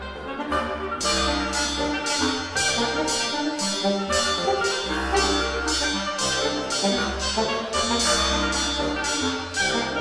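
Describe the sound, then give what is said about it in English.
A reed quintet of clarinet, bass clarinet, bassoon, oboe and saxophone rehearses a new piece with a bicycle rigged for percussion. Sustained woodwind chords run beneath sharp metallic hits that strike in a steady, driving beat throughout. “That is the sound of the Acropolis Reed Quintet rehearsing a new work by composer Stephen Snowden called Sprocket.”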